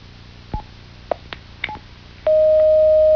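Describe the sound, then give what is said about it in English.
Telephone line connecting an incoming caller: a few short keypad tones spaced irregularly, then a sustained, steady tone that holds loudly to the end. “we got somebody trying to call in, so let me take them and see if it's a question for you.”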